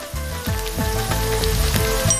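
Water poured into a hot wok of frying tofu sets off a steady, loud sizzling hiss with dense crackling and popping that keeps going without a break.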